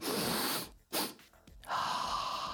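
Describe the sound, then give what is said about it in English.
Deliberate cyclic sighing breaths: two inhales through the nose followed by a longer exhale through the mouth, airy and breathy, with no voice. “This consists of two nasal inhales followed by a longer exhale through the mouth, like this.”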